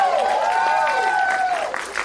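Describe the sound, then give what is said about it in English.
Audience applause for a speaker named Mitch, a steady crackle of many clapping hands with a sustained tonal sound layered over it, staying fairly even before thinning out toward the end. “You can clap for Mitch.”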